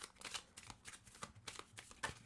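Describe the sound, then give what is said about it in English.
Playing cards are shuffled and drawn by hand, a quiet, quick and irregular run of crisp papery flicks and riffles with no voices. “It always comes out in like a bundle. All right, so let's get some cards.”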